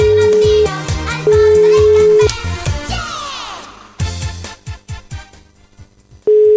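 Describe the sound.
Telephone ringing tone on an unanswered call placed during a live phone-in game: three steady, mid-pitched tone bursts, each about a second or less, separated by gaps, with other sound underneath.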